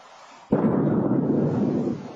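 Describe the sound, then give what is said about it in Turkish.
A sudden loud boom from a giant meteor exploding in the atmosphere over New England, strong enough to shake buildings, bursts in after a quiet moment and rolls into a sustained, dense rumble that tapers slightly near the end. “Atmosferde infilak eden dev meteor ABD'lileri korkuttu.”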